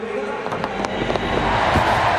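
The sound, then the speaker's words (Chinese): A home crowd cheering at a pole vault competition as a British vaulter clears the height, a dense, sustained roar that swells slightly, with a commentator talking over it. “在主场观众的欢呼声中他也跳过了这个高度”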